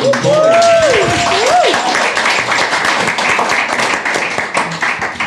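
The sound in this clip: Audience applause greeting a panel guest from Verdant, the Falmouth brewery, at a craft beer talk: loud, dense clapping that starts at once and holds steady throughout, fading only slightly toward the end.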